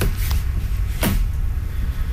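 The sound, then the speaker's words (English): A door opening on the back of a vehicle fitted with a map table, radios and map lights: a couple of brief knocks over a steady, loud low rumble. “Can you open that door? I want to see what's inside the back here.”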